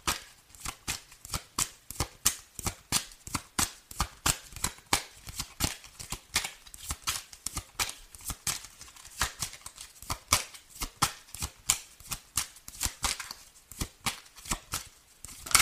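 Tarot cards are shuffled by hand in a faint, steady run of many soft papery slaps and riffles that repeat in an even rhythm throughout, with no talk.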